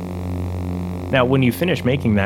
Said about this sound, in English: Ben combined the buzz with the projector hum to create the foundation of the lightsaber.